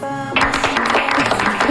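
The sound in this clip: A studio audience applauds after a short sustained tone, making a broad, steady wash of clapping that holds at an even level while a voice talks over it.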